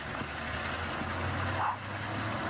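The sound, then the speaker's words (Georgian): A bus arriving on a road in the Seychelles, heard as a low, steady engine rumble that stays faint and even throughout, with no clear rise or fall. “აი ავტობუსი, იმედი მაქვს მიუსვებ.”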